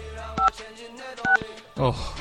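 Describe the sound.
Telephone keypad dialing tones: a few short, bright dual-pitched beeps come in separate bursts with gaps between them, while voices talk around them.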